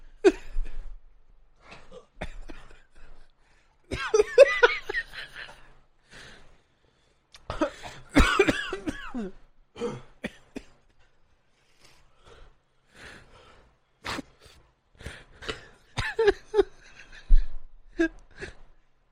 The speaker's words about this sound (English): What happened? Why am I coughing now?